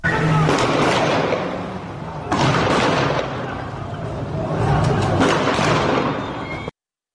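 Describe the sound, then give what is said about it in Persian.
Bursts of automatic gunfire ring out in the city streets of Iranshahr, Iran: dense, harsh crackling rattles loudly and almost continuously, swelling and easing in waves before cutting off abruptly. “این صدای رگبار گلوله از خیابان‌های ایران شهر بود.”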